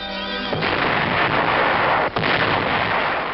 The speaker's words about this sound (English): From under a blanket of snow, artillerymen dig out their ammunition, for this war waits on no weather. Before long, the big guns are ready to go into action and pound the Hun.